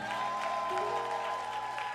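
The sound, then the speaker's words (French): A French-speaking church audience applauds its children's ministry during a Sunday morning service, a steady patter of clapping over sustained musical tones. “Est-ce qu'on peut acclamer le ministère des enfants? Est-ce qu'on peut acclamer tous ceux et celles qui travaillent le dimanche matin?”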